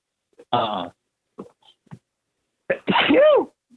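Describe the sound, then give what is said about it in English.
A person gives one loud, forceful sneeze near the end, after a few short breathy sounds. “Oh, yeah, you just sneezed all over your phone.”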